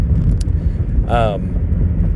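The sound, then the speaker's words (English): A car is being driven, its low, steady engine and road rumble running continuously beneath a brief spoken voice. “I'm driving, obviously.”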